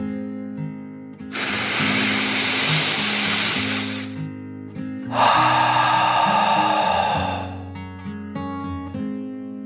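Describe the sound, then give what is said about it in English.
A deep, slow breath in and then out, each rushing, breathy phase lasting a few seconds and separated by a brief pause, over soft, steady music. “He took a final deep dragon breath in and out.”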